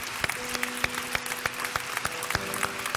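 A church audience claps to welcome online viewers during a service: a faint, evenly spaced run of many claps over a low, steady tone.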